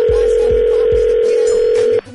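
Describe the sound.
A telephone ringing tone sounds as one loud, steady, even burst of about two seconds while the call waits for an answer, then cuts off abruptly, with a few low thumps at the start.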